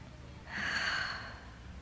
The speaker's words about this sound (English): Together we all take a very deep breath.